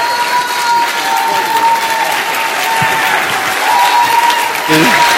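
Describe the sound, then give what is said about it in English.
Audience applause welcoming a speaker to the stage: a loud, dense wash of clapping that holds steady for the whole stretch. “Let's give it up for Dave. Stand up and welcome, okay?”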